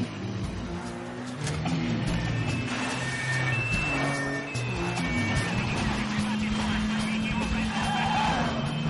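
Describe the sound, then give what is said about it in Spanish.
A car drives fast along a riverside avenue during a film chase after swerving off a pavement between parked cars. A steady engine drone rumbles on beneath a speaking voice, with passing traffic noise mixed in. “Jason conduce por una acera entre hileras de coches aparcados. Vuelve a la calzada. Circula por una avenida a orillas del río.”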